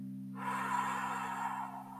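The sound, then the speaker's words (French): A slow exhalation through the mouth during a guided relaxation breathing exercise: a steady, breathy rush that lasts about one and a half seconds over a low, constant drone. “Gardez l'air quelques instants et expirez lentement par la bouche.”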